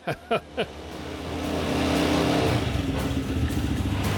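An old car engine, a 1967 car with about 11,000 km on it, gives three sharp coughs as it starts, then catches and revs into a rough, steadily louder running roar that pulses unevenly.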